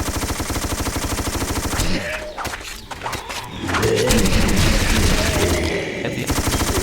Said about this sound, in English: A shotgun. Which is not very useful. This rifle. Yeah, bum bum bum. And this nice machine gun.